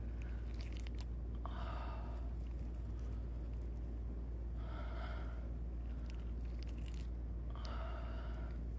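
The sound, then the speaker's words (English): Wet chewing of gum, heard as three separate bursts of smacking and squelching mouth sounds, each about a second long, over a steady low hum. “that sound was your fucking gum.”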